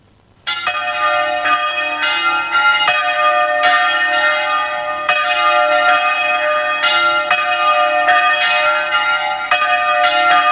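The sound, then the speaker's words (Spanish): Cathedral bells in Córdoba ring the 9:30 morning call to mass, loud, bright metallic tones sounding continuously with repeated strikes and a long ringing hum, with no voices over them. “Esto es una llamada a misa, ¿no? Pues sí, es la llamada a las 9:30 de la mañana en la catedral.”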